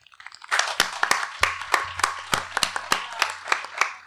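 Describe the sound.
A small studio audience applauds after a quiet opening. Many sharp, fairly regular claps stand out above softer, scattered clapping.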